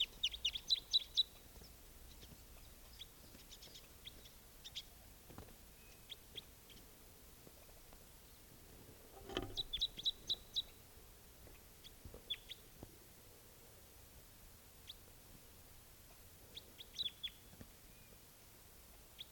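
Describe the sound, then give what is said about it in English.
A wild bird calling: faint, high, short chirps repeated many times in scattered clusters over a quiet background. “Stop. Same bird.”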